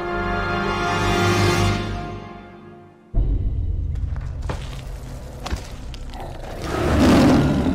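Lions roaring in a lions' den in an audio drama: deep, rumbling roars swell and fade. A heavy thud breaks in near the middle, then more growling roars follow and build toward the end.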